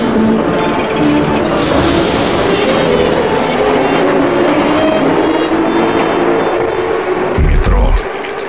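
An underground metro train runs along with a loud, sustained rumble, rattling clatter and a thin metallic whine above it. A brief harsh burst of noise comes near the end, then the sound drops off and quietens.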